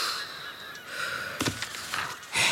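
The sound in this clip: Noisy birds give harsh, honking calls in a few loud bursts, with the strongest call at the end.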